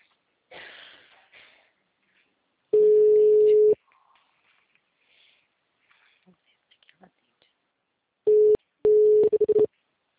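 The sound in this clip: Ringback tones sound while a mobile phone is called: one long, steady mid-pitched tone, then a few shorter broken tone bursts near the end, with brief speech and faint small noises between them.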